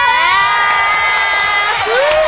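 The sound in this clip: Large live audience cheering at a concert: dense, loud whoops and high shouting voices that stay steady and unbroken throughout.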